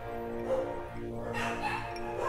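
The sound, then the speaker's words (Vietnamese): Neighbours' dogs barking, a few faint yips and barks that stand out only softly above a steady background hum. “Ok, dừng 2 phút để cho đàn chó nhà hàng xóm sủa xong đã.”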